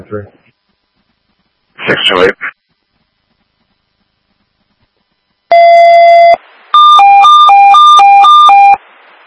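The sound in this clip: Fire and EMS dispatch pager alert tones for a county sheriff's office sound loudly after short bursts of talk: one long steady tone, then a rapid warbling alternation between two pitches.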